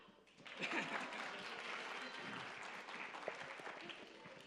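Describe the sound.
Applause from a concert crowd swells in after a brief quiet start, then carries on as a steady, moderately loud clatter of many hands to the end.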